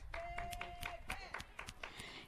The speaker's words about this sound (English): She really deserves your applause.